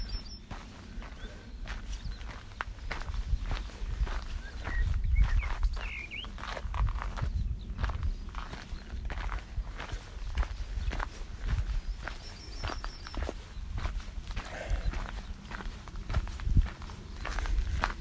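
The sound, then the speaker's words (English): Footsteps on a long downhill stretch of an outdoor walk, following a steep climb: a steady series of many rhythmic steps over a constant low rumble, with no voices. “finished the steep bit of the walk and I'm on the long downhill.”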